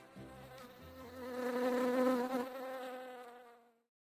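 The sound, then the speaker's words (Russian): Loud buzzing of a fat bumblebee burrowing into a flower: a steady, rich droning hum that swells to its loudest midway, then eases off and stops after about four seconds. “Она увидела толстого шмеля, который с громким жужжанием зарылся в цветок.”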